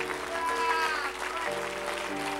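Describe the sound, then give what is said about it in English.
An audience clapping hands during a church worship service, a dense, sustained applause that runs throughout, with voices mixed in. “Let's clap our hands unto him and bless his name.”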